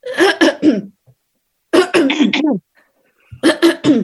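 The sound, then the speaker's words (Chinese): A voice imitates an office coworker's habit of clearing the throat: three loud, raspy clearing bursts, each made of several harsh rough pulses, separated by short silent pauses. “他们清喉咙是这样清的，”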